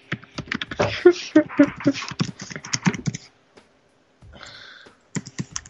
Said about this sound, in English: Who's typing?